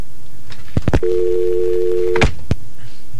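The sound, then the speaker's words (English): A telephone line tone comes from an incoming call that hangs up. A few sharp clicks lead into a steady, loud held tone lasting about a second, then more clicks and one last click after a brief gap. “Wait a minute, there's an incoming call.”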